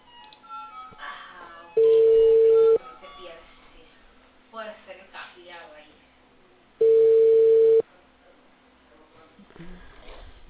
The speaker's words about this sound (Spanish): Voy a llamar.